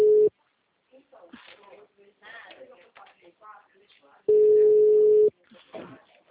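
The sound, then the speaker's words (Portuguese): Disconnect tone from a dropped phone call: a steady mid-pitched beep, a short one at the start and a longer one later, with people talking in between. “Como que eu fui atender a ligação, caiu aqui a ligação. Caiu, ficou muda.”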